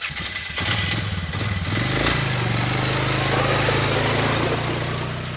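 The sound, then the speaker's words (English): An all-terrain vehicle engine runs steadily, a loud low throbbing drone that builds during the first second and then holds evenly, with no voices. “a rising new recreational phenomenon, the all-terrain vehicle. You know, ATVs.”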